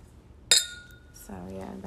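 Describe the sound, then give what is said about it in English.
A single bright clink of glasses touching in a toast, with a sharp strike and a high, ringing tone that fades over about a second; a voice follows shortly after. “Let's give you a cheers.”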